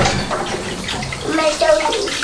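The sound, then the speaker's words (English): Tea being poured into a cup at home: a steady, rushing splash of liquid, with voices speaking over it toward the end. “just let Mummy pour herself a cup of tea”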